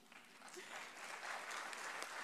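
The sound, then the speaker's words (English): Applause from an audience at a NATO announcement event: a dense, steady clatter of many hands clapping that builds slightly and then holds at an even level, with no speech over it. “But so first applause for me and for all these announcements.”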